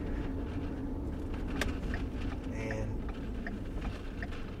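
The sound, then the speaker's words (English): Steady road noise from a car driving to Montpelier Motor Speedway, a continuous low rumble that holds at an even level throughout, with a few faint clicks above it. “We're driving down the road headed to Montpelier Motor Speedway.”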